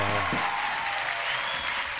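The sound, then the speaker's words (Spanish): Audience applause, a dense, even roar of clapping that runs throughout, with a voice heard briefly at the very start. “¡Un aplauso para Tatita!”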